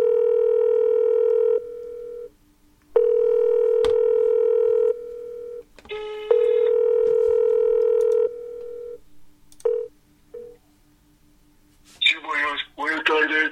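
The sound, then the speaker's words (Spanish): Telephone line during a prank call: long steady tones separated by pauses, followed by a few short dialing beeps, then a voice begins talking at the end. “vamos a marcar un teléfono ahora, que este teléfono no podemos desvelarlo porque también es de un personaje famoso, y vamos a ir marcando”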